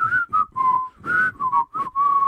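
Someone whistles a cartoon theme song, a bright, clear melody delivered in several short phrases separated by brief pauses, with the pitch stepping up and down between notes and no talk.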